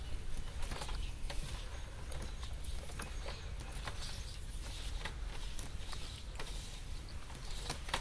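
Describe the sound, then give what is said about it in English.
Rattling clicks of a garden hose being unwound outdoors: many irregular, quick clicks and ratchet-like ticks over a steady low rumble, moderately loud throughout. “we got the hose thingy out here. Unwinding the hose.”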